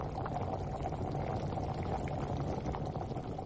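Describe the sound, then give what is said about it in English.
A pot of beans and onion boils steadily, giving a constant, faint bubbling and simmering wash of sound with no clear pauses and no voices. “I'll cover it and allow it to cook for like 45 minutes.”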